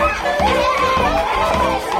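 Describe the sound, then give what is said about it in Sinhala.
Children shout and chatter over one another in a classroom, making a loud, continuous din of overlapping voices. “හරි හරි ළමයි දැන් කෑ ගහන්න බා වාඩි වෙන්න වාඩි වෙන්න.”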